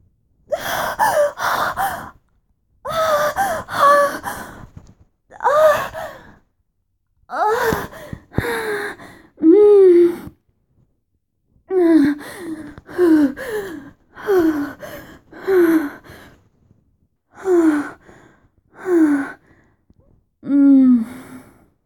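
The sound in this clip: Heavy panting as someone catches their breath: many ragged, gasping breaths in uneven clusters over about twenty seconds, some carrying voiced, groan-like tones, with no talk.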